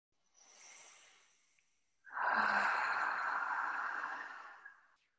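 A deep breath: a soft intake of air, a short pause, then a longer, louder, sighing breath out that fades at the end.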